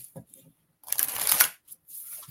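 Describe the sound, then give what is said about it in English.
Playing cards being shuffled and a card drawn during a card reading: a brisk riffling burst in the middle, with a few brief, soft handling rustles and taps before and after. “let me pull you a card”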